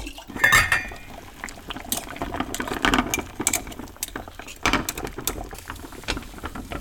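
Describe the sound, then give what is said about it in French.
Water boils in a pot to sterilize a glass jar, with steady bubbling and many light glassy clinks and knocks throughout, no talking heard. “on va le stériliser. Et pour stériliser, on peut mettre soit dans l'eau bouillante pendant une minute, soit au four à 60 ou 80 degrés.”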